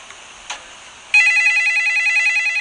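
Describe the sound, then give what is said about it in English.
A telephone starts ringing after a quiet moment, with a loud electronic ring of trilling, pulsing tones that stays steady to the end. “Oh, that's the phone!”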